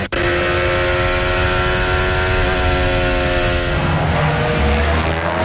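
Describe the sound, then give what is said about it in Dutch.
Onboard engine sound from a Formula 1 race car running in fifth place during a race: a loud, steady, high-pitched engine drone with strong harmonics that shifts to a lower, rougher tone near the end. “Onboordgeluid bij Kimi Antonelli vandaan.”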